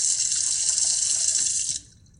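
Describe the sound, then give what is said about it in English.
Water runs and splashes into a bathroom sink as a man splashes his face, a steady, fairly loud rush that cuts off near the end and leaves a faint tail. “leans into his sink and splashes water on his face”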